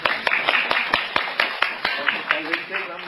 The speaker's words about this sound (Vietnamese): vỗ tay đi.